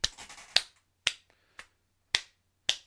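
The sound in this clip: Hand clapping: a quick cluster of claps at the start, then five sharp, isolated claps spaced about half a second apart, each bright and abrupt against silence.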